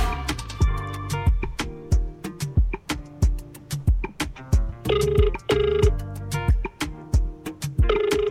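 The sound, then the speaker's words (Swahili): A telephone rings as a cash-prize winner is called, heard as a quick series of bright, bell-like tones in an uneven rhythm. No one talks over it. “Hapa ni time ya kumpigia mshindi wa mchongo pesa ambaye ameondoka na hela kibao”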